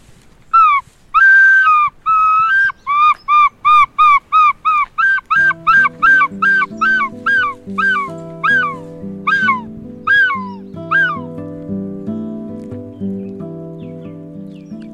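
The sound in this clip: A person imitates a gull call: many loud, whistled squawks, each sliding downward in pitch, repeated rapidly in a steady rhythm. Lower humming tones join underneath in the second half.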